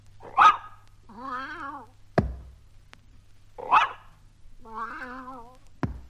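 A dog's bark, a cat's meow and one pat on the floor, played in that order and then repeated. Each round has a sharp bark, a longer wavering meow and a short dull thud, with brief gaps between sounds.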